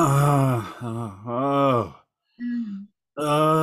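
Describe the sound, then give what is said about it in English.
A man groans while praying: several drawn-out, voiced groans with wavering pitch, separated by short silent pauses, with one lower, shorter moan near the middle. “And I'm just sitting there just groaning in the Spirit, just,”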